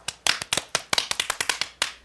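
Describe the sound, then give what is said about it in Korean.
Scattered hand clapping greets a donor who is giving scholarships. Many sharp, uneven claps pop in quick succession over about two seconds. “딩링 의장님이 여러분께 장학금을 기부한다고 합니다. 자, 박수로 맞아주세요.”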